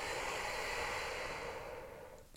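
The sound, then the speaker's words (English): A slow exhale of breath during a guided breathing exercise, a soft, airy rush that holds steady and then gradually fades away. “You inhale. And you exhale.”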